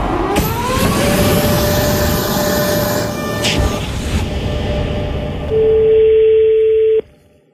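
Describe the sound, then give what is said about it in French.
Ringback tone of an outgoing telephone call, a single steady electronic tone near the end that cuts off abruptly, following a stretch of loud rumbling background noise. “on a appelé, François Ruffin a appelé la grande chancellerie de la Légion d'honneur”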